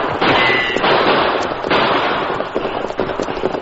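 Gunshots fired at outlaws during a stagecoach chase on horseback, many sharp, loud cracks blurred together in a dense, continuous burst of noise.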